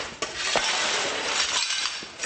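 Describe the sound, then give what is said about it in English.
Broken glass is cleared from the floor of a looted clothing boutique in a shopping mall. A continuous scraping hiss runs throughout, broken by a few sharp glassy clinks. “Workers here are cleaning up the floor, which is still covered with broken glass and bloodstains.”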